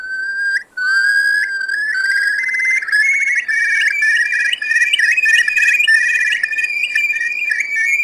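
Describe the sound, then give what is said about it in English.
Mournful, piercing cry of a ground-nesting Irish moorland bird: clear, high whistled notes that open with a few short calls, then run into a long, wavering, quavering refrain, loud and alone. “Its mournful, piercing cry was, for a great many people, the quintessential sound of Wild Ireland.”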